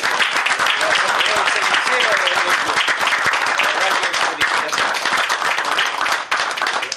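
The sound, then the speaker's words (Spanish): Audience applause at a club awards ceremony: dense, continuous clapping that stays loud and steady from start to finish. “yo creo que se merece otro aplauso a estos chicos”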